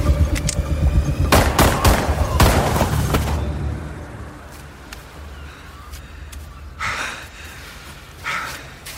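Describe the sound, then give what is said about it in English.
Gunshots in a tense drama scene: several sharp, loud cracks packed into the first few seconds, followed by a quieter stretch of lingering noise. “just shoot her already.”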